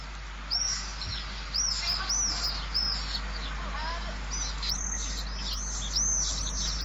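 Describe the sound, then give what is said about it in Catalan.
Pallid swift calls: shrill, high-pitched screeching notes repeated in quick succession, coming in two bouts separated by a short pause, over a faint low steady hum. “Apus pallidus, que és una espècie molt similar, però no tan fosca.”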